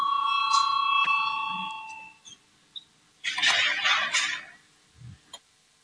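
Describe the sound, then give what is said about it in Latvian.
A voting bell rings in a parliament chamber with a bright, sustained tone that lasts about two seconds and fades. Brief rustling and a few faint knocks follow. “Lūdzu zvanu, balsosim”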